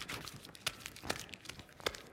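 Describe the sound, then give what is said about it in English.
A $100 bill is crumpled up by hand, making dry crinkling paper crackles. Irregular rustling is broken by a few sharper crunchy pops, all fairly quiet with no talking. “Now I've crumpled it all up. Now how many of you want the $100 bill?”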